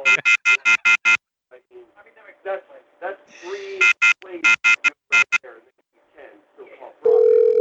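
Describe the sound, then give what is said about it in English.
Off-hook warning tone from a telephone left unhung, loud rapid beeps in repeated bursts alternating with voices talking, ending in a steady sustained tone. “You forgot to hang up the phone. Sir. I'm the man in charge of playing this sound”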